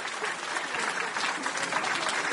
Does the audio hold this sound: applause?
yes